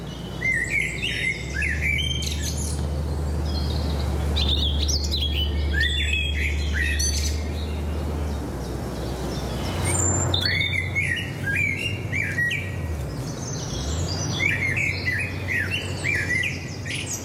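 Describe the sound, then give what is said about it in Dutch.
Birdsong from a blackbird, a robin and a woodpecker calling: many bright chirps, trills and sharp squawks come in repeated bursts over a steady low rumble. “In haar opname horen we een trio van merel, roodborst en specht.”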